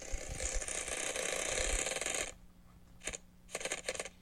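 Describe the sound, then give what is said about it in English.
A prize wheel spins in a word game with a rapid, continuous rattle of clicks for about two seconds. It then slows to a few scattered separate clicks. “We are going to give the wheel a spin and hopefully it will be a little kinder.”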